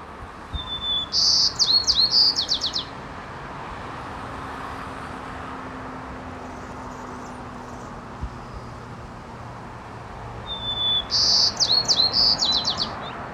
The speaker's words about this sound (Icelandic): að fuglar sem búa í grennd við umferðargötur þurfa að aðlaga söngin bílaumferðinu og syngja þá bæði hærra og skrækara á hærri tíðnisviðum. Og það gerði kúftillingarnir í San Francisco borg í mörg ár.